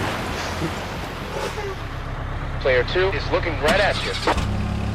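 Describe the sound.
Car engine from a racing video game, the car steering badly, a steady loud drone throughout with voices talking over it in the second half.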